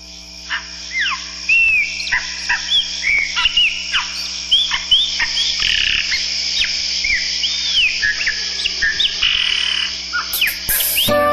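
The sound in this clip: Many birds chirp and twitter in quick, repeated high calls within a Brazilian song that features singing with birds. A faint, low, steady drone sits underneath.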